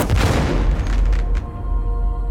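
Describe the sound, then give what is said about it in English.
A single gunshot rings out as the final shot fired by a defender in the Mongol siege of Zhongdu, a heavy, booming blast with a deep rumbling body and a long, rough tail that fades slowly. “In the stifling heat, he fires off one final shot.”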